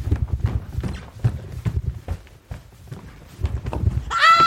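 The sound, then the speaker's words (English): Footsteps running up a staircase, a rapid series of heavy low thuds with a brief lull midway, ending with a short high vocal cry. “don't run up the stairs. It's running to meet you.”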